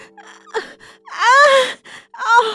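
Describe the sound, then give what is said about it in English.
Sudden, pained gasps from a woman in labor: a few short, strained intakes of breath around one long, voiced, wavering gasp that rises into a cry-like sound, heard alone without talk. “there was a sudden intake of breath. Someone was in great pain.”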